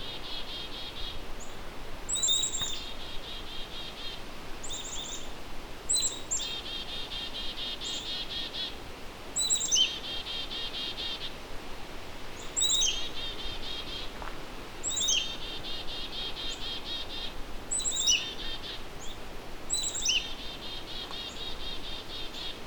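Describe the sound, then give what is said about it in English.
Black-capped chickadees calling agitatedly, with short bursts of high, sharp chips and buzzy notes repeating every few seconds over a steady insect drone. “So we've got some annoyed sounding black-capped chickadees. I wonder what they're worked up about.”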